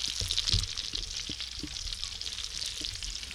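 Bacon sizzles in a pan at a Super Bowl party, a steady, faint crackle and hiss with a few soft clicks, and no talking.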